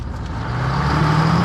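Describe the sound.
A passenger-carrying vehicle sets off, its engine hum rising steadily in pitch and growing louder as it pulls away. The sound is a smooth, continuous drone and no voices are heard.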